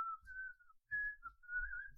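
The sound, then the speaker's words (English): A person whistles a faint, sustained high melody with small pitch glides and one brief break partway through, with no talking. “No one is allowed to whistle while in a drinking establishment. I support that. So if I like it when people whistle,”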